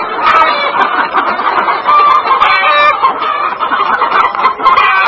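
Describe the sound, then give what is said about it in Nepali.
Egg-laying layer hens cluck on a village poultry farm, many birds overlapping in a continuous, busy chatter of short mid-pitched calls that never pause. “हरपल केसीले अण्डा उत्पादन गर्ने layers जातका अण्डा दिने कुखुरा विगत दस वर्षदेखि पाल्दै आउनु भएको छ।”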